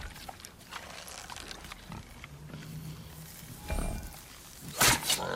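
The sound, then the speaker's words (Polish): A wild boar grunting in a video game: low, rough grunts and snorts over a steady hiss, with a couple of louder bursts near the end. “Skóra dzika jest gruba. A on jakiś taki malowany jest.”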